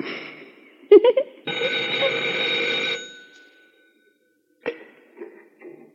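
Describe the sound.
A telephone bell rings in one sustained burst of about one and a half seconds, with a few brief, sharper sounds before and after it and silent gaps between.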